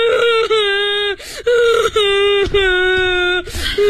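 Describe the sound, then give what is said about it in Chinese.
A child cries in long, sustained, high-pitched wails that are strongly tonal. The wails are broken by short gasping breaks, repeating several times, loud and alone. “咱们不哭了啊”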